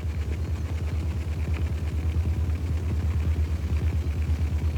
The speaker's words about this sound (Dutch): Klinkt als een oud motortje, aanhangmotortje, maar het is echt de kwapaal.